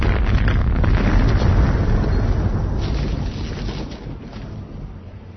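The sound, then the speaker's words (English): A thermonuclear blast destroys the spaceship Fool's Gold in a science-fiction drama. It is a massive, deep roaring rumble that starts loud and slowly dies away over about five seconds, with no voices. “the thermonuclear blast not only obliterated the Fool's Gold, but it also sufficiently altered the trajectory of 2046 Bar”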